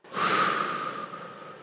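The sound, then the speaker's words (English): A long, exaggerated breath through the mouth as part of a calming breathing exercise. It is one sustained, airy rush that starts abruptly and slowly fades, heard alone with no talking. “Two inhales through the nose and a long, exaggerated exhale through your mouth.”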